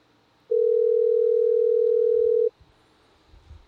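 A telephone rings after a number is dialed: one steady, mid-pitched electronic tone lasting about two seconds, heard alone, followed by faint background noise.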